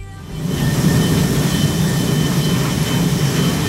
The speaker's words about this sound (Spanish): ¿Nos vamos al aeropuerto? Nos vamos al aeropuerto. Vamos a coger un avión, lo primero.